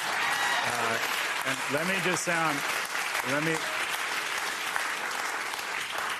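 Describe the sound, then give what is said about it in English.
Audience applause breaks out after a remark in a talk, a loud, dense roar of clapping with voices calling and whooping over it early on, then a sustained even clatter of hands. “that gets applause.”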